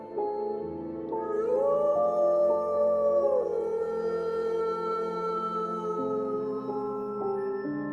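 A dog howls at night from the direction of a cemetery, long drawn-out wailing tones that slide up and then hold steady, overlapping and moderately loud for about eight seconds.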